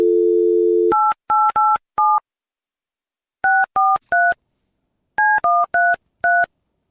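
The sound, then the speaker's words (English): Telephone dialing tones as a call is placed to a hotel's automated line. A steady low dial tone is followed by many short, evenly pitched keypad beeps in three quick clusters, with brief pauses between them. “So I call the Long Island Marriott. I get a machine and it sounds like this.”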